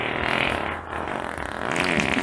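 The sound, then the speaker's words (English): A fart is heard, a raspy, sustained sputter lasting a couple of seconds at a steady, moderate level with a slight dip in the middle. “There you go. You've been farting a lot at the house lately.”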